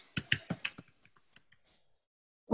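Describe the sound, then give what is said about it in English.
Typing on a computer keyboard: a run of crisp key clicks that begins loud and quick, then thins into fainter, sparser taps before one louder hit at the end. “So I typed in mine. I typed in probate, bankruptcy, foreclosure, eviction, divorce,”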